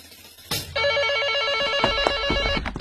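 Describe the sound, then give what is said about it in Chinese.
A telephone bell rings during a tense wait for a ransom call. A sharp knock comes first, then a loud, sustained electronic trill of bright, pulsing tones runs steadily to the end. “电话铃声又响”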